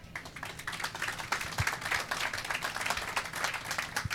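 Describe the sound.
Steady applause from an audience welcoming the guest moderator at a Meet the Developer event in the Apple Store on Regent Street, a dense patter of claps lasting throughout.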